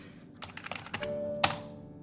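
Keys clicking on a laptop keyboard as someone types in password guesses late at night: a short run of light, irregular keystrokes, then one sharper, louder tap.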